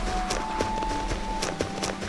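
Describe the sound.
A video game character runs with quick, light footstep taps in an irregular patter. A thin, steady electronic tone and a low background hum run underneath the whole time.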